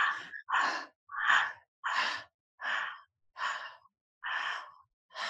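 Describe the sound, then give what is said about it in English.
Eight short, quick breaths in a guided breathing exercise, tiny inhales flowing into exhales. Each is a soft, airy rush, evenly paced with brief gaps between them, and no one talks. “So we're going to take teeny tiny breaths, but we're just going to connect the inhale to the exhale.”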